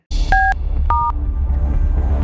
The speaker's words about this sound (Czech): Ale pozor, teď telefony neberu, teď volám já.